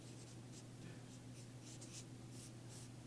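Writing on a board: faint, scratchy strokes of many quick marks follow one another over a steady low hum.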